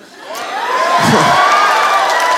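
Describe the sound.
An audience cheers and whoops, a dense, steady roar of many voices that swells in the first moments and then holds loud to the end, with a bright whooping cry rising out of the crowd.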